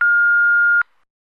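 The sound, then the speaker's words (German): An answering machine beep sounds alone: a single steady, mid-high electronic tone held for about 0.8 seconds, then cut off cleanly, followed by silence. “Rufen Sie später wieder an oder hinterlassen Sie eine Nachricht nach dem Signalton.”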